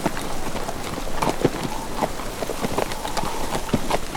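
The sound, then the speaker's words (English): Horse hooves pound as mounted riders set off, one horse carrying two men, with irregular thudding hoofbeats over a steady rushing noise throughout. “Then the big man mounted behind him. Ready, Matt? Ready, Chief. Let's ride.”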